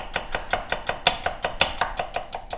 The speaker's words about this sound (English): I can listen to you cut onions all day long.